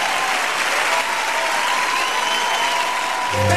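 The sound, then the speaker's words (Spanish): Audience applause at a live salsa and bachata event, a dense, steady wash of clapping that runs unbroken through the whole stretch and swells slightly louder at the very end. “Un aplauso para Vico.”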